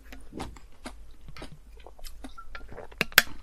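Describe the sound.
Someone chews a Sacré shaved-ice cup dessert with lemon slices, making crisp, crunchy bites. A few quiet crunches and wet chewing sounds repeat unevenly, with a sharper, louder crunch near the end.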